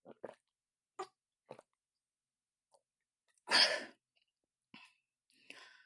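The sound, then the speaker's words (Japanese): Someone drinks water in a few short, separate gulps and swallows, then lets out one loud, breathy exhale, followed by soft mouth sounds. “はい、それでは今からまたお水を飲むんだけども。はい。それでは、いただきます。”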